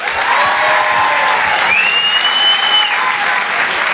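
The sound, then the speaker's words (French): A comedy club audience applauds loudly and steadily, a dense wash of clapping with a high whistle cutting through midway. “Faites un maximum de bruit, s'il vous plaît, pour Oda Sama.”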